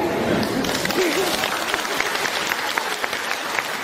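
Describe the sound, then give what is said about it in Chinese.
An audience applauds on its own, with dense, even clapping that continues at a steady loudness throughout, with individual sharp claps standing out now and then. “啊，这次比较自觉，我没叫你们就鼓掌了。”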